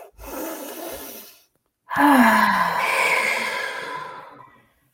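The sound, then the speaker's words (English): A deep breath drawn in, a short pause, then a long audible exhale through the mouth, voiced like a sigh and gradually fading out. “I'm going to have you take a deep breath in, and then we're going to exhale out our mouth.”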